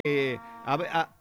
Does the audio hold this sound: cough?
no